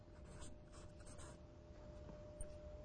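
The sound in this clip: Handwriting of letters, heard as a few faint, short scratchy strokes in near silence.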